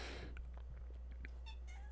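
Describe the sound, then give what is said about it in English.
A cat meows a few times, short tonal cries that rise and bend in pitch, faint over a steady low hum with no talking. “And that is my cat deciding to join in on the podcast.”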